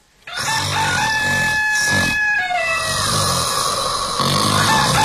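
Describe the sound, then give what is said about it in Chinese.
A rooster crows and someone snores at the same time, both loud and overlapping for the full five seconds, with the crow's drawn-out tonal call riding over the rough, rasping snore. No one speaks. “又是打鼾，又是打鸣，还让不让人睡了？”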